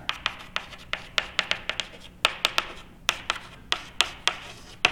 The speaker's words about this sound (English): So where can I erase? I guess I can erase this.